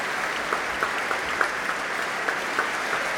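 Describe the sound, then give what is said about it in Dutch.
Applause for orchestra musicians as the whole orchestra stands to receive it. Fairly soft, steady clapping from a concert audience, with a few sharper individual claps poking out of the even patter. “Ja, groot applaus ook voor alle muzici nu van het orkest.”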